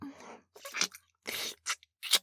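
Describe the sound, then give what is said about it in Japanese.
Wet tongue licking sounds come in several short, smacking bursts separated by brief silences, close and fairly quiet. “お尻も私の舌でベロベロって舐めながら”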